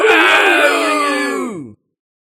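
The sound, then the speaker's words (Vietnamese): Skeletons and zombies roaring together, many groaning voices layered into a loud, sustained howl that sinks in pitch before cutting off abruptly. “Vô số bộ xương khô và cương thi theo gã mà gào thét, nhảy vào sâu bên trong vùng đất không lành tràn ngập ma khí.”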